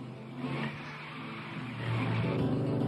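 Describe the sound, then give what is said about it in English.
Car engines roar through a film car chase in a continuous, loud, mid-pitched growl that grows louder over the final second. “This is possibly the greatest car chase in cinema history.”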